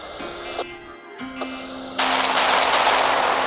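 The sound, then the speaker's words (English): Heavy gunfire in a combat scene: a few sharp cracks over a steady, low drone, then a dense, loud, sustained barrage of noise. “We're under heavy fire. I repeat, we need reinforcements.”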